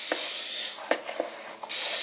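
Butter-flavored cooking spray hisses into a pie plate in one steady spray lasting under two seconds, with a few brief bumps in the middle before it cuts off.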